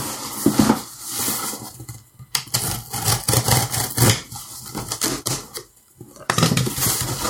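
Cutting open both ends of a package sealed with fabric-weave tape, holding a Patlabor Ingram figure: loud scraping and ripping bursts with short pauses between them.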